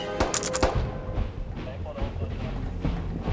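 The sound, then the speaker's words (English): Rifle and pistol gunfire: a burst of sharp, loud cracks packed into the first second, then a few scattered shots over a dense, rumbling background. “Arian grabs his rifle, Ernie grabs the spare pistol. He empties that as Arian staggers across to him, firing as he goes.”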